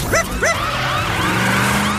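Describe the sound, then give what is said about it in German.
A police car siren in a children's animated story: short wailing tones sweep up and down in quick arcs over a low engine hum, loud and brief. “Chase nahm die Rutsche und saß schon Sekunden später in seinem Polizeiauto.”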